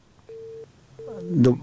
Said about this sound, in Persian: شنونده های عزیز، تماس آقای عظیمی با ما قطع شد، دوباره کوشش میکنیم که تماس وصل شود